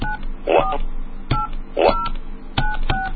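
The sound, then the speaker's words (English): Telephone keypad tones as a caller code is punched in: several short beeping tones in an uneven sequence, separated by sharp button clicks, all at moderate volume. “If you're tired of waiting, press 0. Punch in the other caller's code now.”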